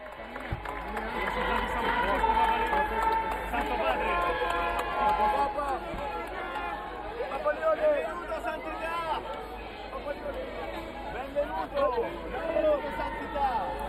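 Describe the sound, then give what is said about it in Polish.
Crowd of Franciscan youth gathered to meet Pope Leo XIV in Assisi: a steady, lively babble of many voices fills the whole stretch without pause. “A dzisiaj piękny dzień, Ojciec Święty Leon XIV jest w Asyżu, spotyka się z młodzieżą franciszkańską. Słyszymy te emocje i tę radość.”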